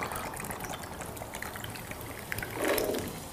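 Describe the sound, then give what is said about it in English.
San Pellegrino blood orange sparkling drink is poured over ice into a spritz with rose vermouth. A steady, fizzy splashing pour runs throughout and swells fuller near the end. “I'm going to add some ice. And then we're going to finish it off with some San Pellegrino blood orange, sparkling.”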